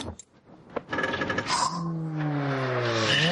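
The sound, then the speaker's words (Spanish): A car crash in an action film: a car tumbles over and lands on its roof with a sharp impact, followed by scraping and clattering, then a sustained tonal whine that rises steadily in pitch. “Cae y da vueltas de campana. Queda sobre el techo.”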